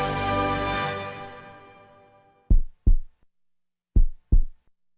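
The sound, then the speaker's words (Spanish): A heartbeat sound effect of four low, muffled thumps in two lub-dub pairs. The beats are loud and isolated against silence and follow a sustained tonal chord that fades away. “Son nuestros latidos los que bombean la fuerza.”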